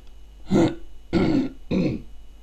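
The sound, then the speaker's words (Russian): A man clears his throat after drinking and eating, in three short, rough, loud bursts separated by brief pauses, with no other sound. “спрятав добрую отрыжку в плече адъютанта, прокашлялся.”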